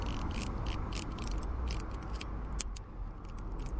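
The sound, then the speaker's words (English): A mechanical timer is wound up, giving a run of faint, rapid ratcheting clicks at an irregular pace over a steady low background hiss. “I'm going to start the timer now, but first of all, I have to wind it up, because it's mechanical.”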